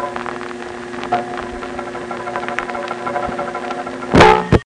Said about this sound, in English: This part of what you heard is a mechanical sound of the relays that are actually turning the beeps off and on to send out the multi-frequency tones.